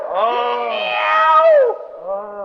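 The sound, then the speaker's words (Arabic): A human voice imitating a cat meowing: two loud, wavering meows, the first drawn out and bending in pitch before dropping at the end, the second shorter. “قلنا لك يا اخي مياو مياو.”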